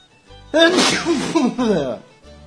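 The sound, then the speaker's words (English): A loud, strongly voiced sneeze stretches into a wavering, drawn-out cry of about one and a half seconds. It rises abruptly and then trails off. “Sneeze.”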